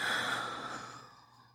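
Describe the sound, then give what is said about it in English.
A deep breath is released as a long, soft exhale, a breathy hiss that starts fairly strong and fades steadily away over about a second and a half, with no voice. “let's just take a deep breath in, okay? And release.”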